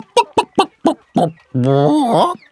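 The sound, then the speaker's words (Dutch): A voice imitating a hen's clucking: five short, clipped clucks in quick succession, then a long, drawn-out, wavering cackle. “Op zekere dag zei de hen die zichzelf heel wijs en geleerd vond...”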